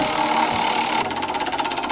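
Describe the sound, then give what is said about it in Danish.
A studio word generator machine gets going as a sound effect. A steady mechanical whirr shifts halfway into a fast, even, chugging pulse like a motor spinning. “Jamen, ordgeneratoren her i studiet, den står allerede og bimler og bamler. Den er ved at være klar til os.”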